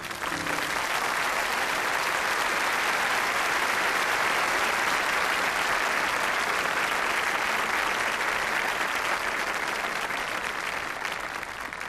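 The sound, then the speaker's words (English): An audience claps together during a church service, producing dense, steady applause that stays loud and even for the whole stretch without pausing. “Let's just give God a clap offering right now.”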